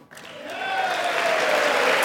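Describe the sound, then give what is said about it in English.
Audience applause from a partly clapping crowd swells quickly into a steady, dense patter of many hands and holds at full strength to the end. “Oh, everyone's clapping that we see. It's interesting. A lot of clapping going on here. But not the whole room.”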